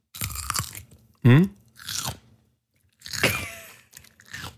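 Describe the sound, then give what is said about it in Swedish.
Someone bites into and chews a home-grown greenhouse cucumber, making a few crisp, wet crunches separated by pauses, with a short voiced murmur between them. “Det här är alltså en gurka som jag har kämpat hårt med i mitt växthus. Ja, nu ska vi smaka då.”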